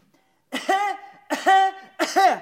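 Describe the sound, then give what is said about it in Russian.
A feigned coughing fit made by one person, in three voiced, throaty bursts spaced evenly about three-quarters of a second apart, each loud and short with a harsh, tonal edge. “А ты притворись, что у тебя приступ кашля. Ну, вот так.”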